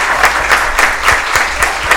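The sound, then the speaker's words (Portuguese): An audience applauds young performers at a gaucho traditions center event, with dense, steady clapping that swells slightly in a loose pulse. “Uma salva de palmas para essa gurizada daqui.”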